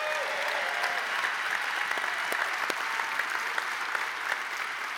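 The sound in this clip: A church audience applauds to welcome a guest speaker, an even patter of many hands clapping at moderate volume for the whole stretch.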